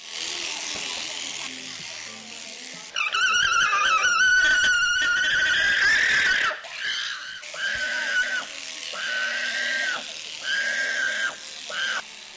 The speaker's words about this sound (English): Some of the alpacas quietly let their owners shear them. But some of them do not like it at all.